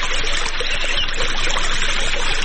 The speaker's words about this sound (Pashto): په دغه باغ کې په اوبو لګولو بوخت دی